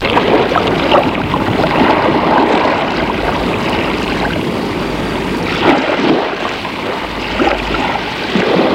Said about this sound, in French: On entend le bruit de la mer